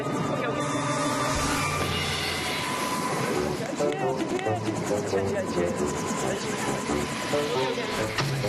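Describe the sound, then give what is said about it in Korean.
Loud, steady rotor and engine noise from a helicopter during a dog training exercise, continuous for the whole stretch, with a voice talking over it. “다정이의 목줄을 잡고 헬기를 향해 뛰어갔는데요. 씩씩하게 헬기로 다가가던 다정이가 갑자기 걸음을 멈추고 힘들어합니다.”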